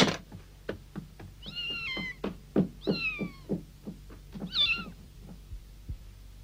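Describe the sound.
A cat meows three times, with short, wavering, high-pitched calls spaced a second or so apart. Soft, regular thumps tap underneath and continue between the calls.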